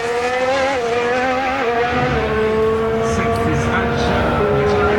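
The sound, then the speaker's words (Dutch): Formula 1 car engine screaming during a qualifying lap as the car drifts, a loud high-pitched whine whose tone drops in steps as the revs fall, then holds steady near the end. “Wow, dikke drift. Dat gaat dan wel ietsjes aan tijd kosten.”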